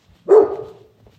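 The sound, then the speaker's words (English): A single bark from a white, fluffy dog, a short sharp yap with a brief trailing tail, loud against an otherwise quiet background. “oh, he's white and fluffy. Whoa, whoa, whoa. Hi, fluffy dog. Gotta try to be nice. He's having none of it.”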